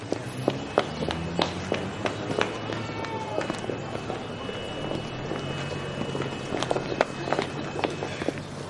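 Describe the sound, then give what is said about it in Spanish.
Running footsteps cross a town square in a film drama scene: a quick, even series of many sharp steps over a steady background. “Pilar corre hacia Antonio que espera al otro lado de la plaza.”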